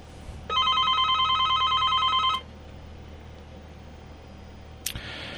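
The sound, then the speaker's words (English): An electronic telephone ring announces an incoming call: a single bright burst of high, warbling tones lasting about two seconds. Quiet hiss follows, then a sharp click near the end. “I think that is my caller now.”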